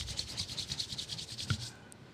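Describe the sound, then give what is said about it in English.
Hands rubbed briskly together make a dry, rhythmic swishing of many quick strokes at a steady pace. The sound is soft and fades out near the end, with one small click partway through and no voices. “clap and then rub your hands together”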